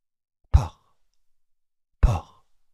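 Laboured, rattling breathing: two brief, heavy breaths about a second and a half apart, quiet against silence.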